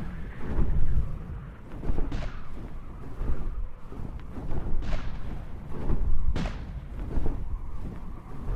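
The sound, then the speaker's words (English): Large guns firing: a continuous heavy rumble of booming blasts with a few sharper cracks standing out, loud and dense throughout, with no talking. “Those guns are maybe a little bit bigger than I expected.”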